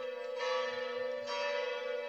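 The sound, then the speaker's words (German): A doorbell rings with a rich, bell-like chime like golden bells, sustained ringing tones with two distinct swells, the second starting about a second after the first, with no voices. “Da ertönte ein wundersames Läuten von innen. Goldene Glocken mussten es wohl sein.”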